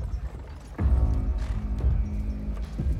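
Hoof clip-clops from a horse-drawn carriage in a tabletop fantasy role-playing game scene, a few irregular hoof strikes over a steady low rumble with faint sustained tones, no voices.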